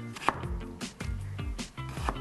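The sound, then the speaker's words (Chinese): A knife chops winter melon on a board, cutting away the skin and slicing through the seeds in two-centimeter pieces. A few distinct cutting strokes knock out over a steady tonal background. “再把旁边的皮 对 一刀一刀切开，然后再把中间的籽也是切开”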